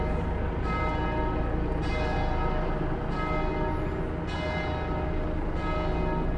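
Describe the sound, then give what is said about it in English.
A church bell rings at seven o'clock, striking about five evenly spaced strokes roughly a second apart, each blooming into a sustained, shimmering metallic hum that overlaps the next. “It may be a complete coincidence at 7 o'clock, but... the bell just means it's 7 o'clock, damn it.”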